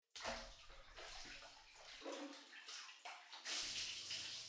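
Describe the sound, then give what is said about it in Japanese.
Hot bath water is poured over a body in a rinse, a continuous rushing splash that shifts in strength over a few seconds, with no talk. “お湯で体を流させていただきます。”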